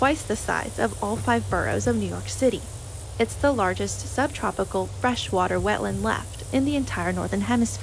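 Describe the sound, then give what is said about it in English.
Crickets and frogs chorus steadily in a swamp on the Suwannee Canal, a continuous low drone and faint chirring running beneath a voice that talks throughout. “Cue the swamp music of crickets and frogs. This is the sound of a swamp so big,”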